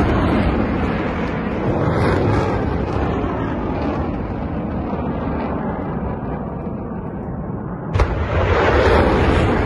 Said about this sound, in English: Now, here's footage of the rockets being fired.